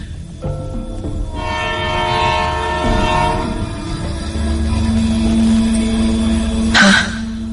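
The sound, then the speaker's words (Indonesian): A train approaches from a distance, sounding its horn in sustained, layered harmonic tones over a low rumble of rolling cars. The sound grows gradually louder and ends with a sharp burst. “ada suara kereta yang datang dari kejauhan.”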